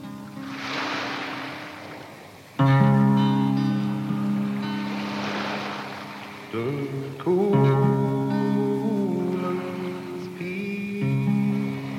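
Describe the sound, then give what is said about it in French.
Wild sea waves roar beside a seaside house, surging in a few broad washes of surf that rise and fall beneath sustained instrumental music. “Dans cette maison de 3 étages à 2 pas de la mer, une maison avec une vague sauvage qui gronde et qui jase à côté.”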